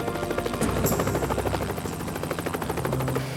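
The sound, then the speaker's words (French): Helicopters fly methodically over a search area of woods and marshes, their rotors making a loud, continuous, rapid chopping pulse that stays even throughout. “Des hélicoptères survolèrent méthodiquement la zone, mais on ne trouva rien.”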